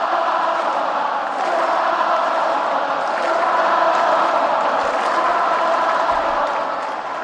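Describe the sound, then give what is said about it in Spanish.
Crowd ovation for Rafa inside the Caja Mágica arena, a loud, unbroken roar of cheering and clapping that holds steady throughout. “Ovaciona ahora la caja mágica a Rafa.”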